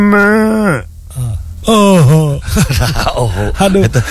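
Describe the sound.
Cow mooing: two drawn-out, low, groaning calls with falling pitch, the second wavering, followed by talk.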